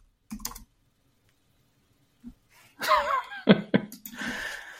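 Keystrokes clatter on a computer keyboard as a chat message is typed: a short burst of taps, a lone click, then a denser, uneven run of clicks that continues to the end.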